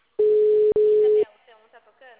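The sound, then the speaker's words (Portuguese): Telephone busy signal on an unanswered call: two steady mid-pitched tone bursts, each about half a second long with a brief gap between them, followed by faint talk. “tô fazendo ligação, porque lá não chama, mas aqui também a ligação também tá. Como ninguém atende.”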